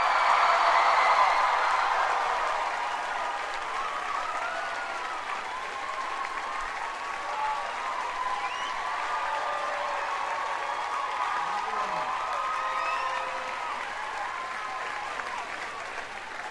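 Dense, steady applause from the audience at the Harbor Stage of the Newport Folk Festival in its 50th year, loudest at the start and then holding a continuous, even roar of clapping.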